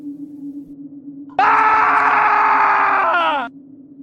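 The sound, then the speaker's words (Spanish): A man screams: one long, loud, sustained cry of about two seconds that sags slightly in pitch as it ends. A low steady hum runs underneath, and no one speaks. “pega un grito”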